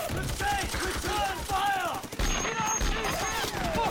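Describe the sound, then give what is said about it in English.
Machine gun fire in a war battle scene, rapid repeated bursts of shots that run throughout beneath loud shouting voices. “Frankie gets to his feet and machine guns the enemy”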